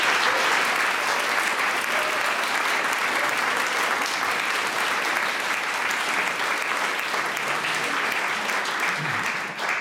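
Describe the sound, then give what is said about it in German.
Applause and cheering from the audience at a literary colloquium, a dense, steady wash of clapping that carries on evenly for nearly ten seconds. “Regelrechte Fanrufe gibt es hier im literarischen Kolloquium. Das ist sehr schön, das soll so bleiben.”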